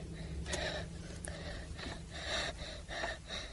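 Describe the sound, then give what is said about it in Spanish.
Heavy breathing from a person: rough, breathy gasps that swell and fade in an uneven rhythm, with a steady low hum underneath. “Deja de respirar así. Deja de respirar así.”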